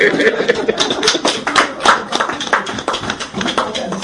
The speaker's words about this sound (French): Applaudissons pour elle alors.